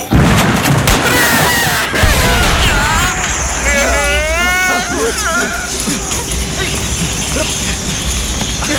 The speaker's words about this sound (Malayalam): അയ്യോ, പൊട്ടി പൊട്ടി, മുളയെല്ലാം പൊട്ടി.